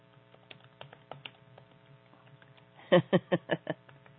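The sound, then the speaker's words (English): Typing out a text message: faint scattered taps, then a run of five louder, rapid taps over a low steady hum. “Okay, I just need to get this one text out.”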